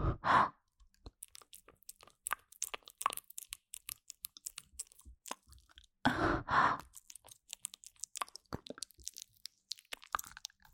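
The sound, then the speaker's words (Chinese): Small beans are chewed softly, with many quiet crunches and wet smacks in an irregular rhythm. Twice the chewing is broken by a louder breathy sigh. “这两个小豆豆吃起来味道还不错呢。”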